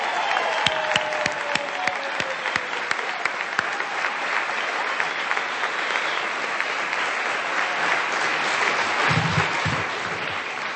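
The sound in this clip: A crowd applauds the finalists of a Braille reading competition, a sustained dense wash of clapping with a few sharper individual claps standing out early on.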